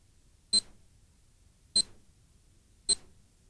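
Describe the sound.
Answering machine beep: three short, high-pitched electronic beeps, evenly spaced a little over a second apart, sounding alone over near silence.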